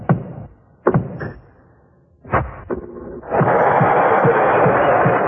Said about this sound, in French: Quant au bruitage de la balle, on reste baba.